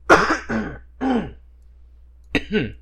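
A person coughs and clears their throat in a few short, harsh bursts, then pauses before a final rasping pair.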